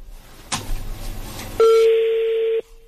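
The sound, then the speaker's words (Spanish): A telephone tone on an unanswered outgoing call: a burst of line noise, then a single steady electronic tone lasting about a second before it cuts off. “Buzón de voz. Tu llamada está... Ah, no contesta la suegrota.”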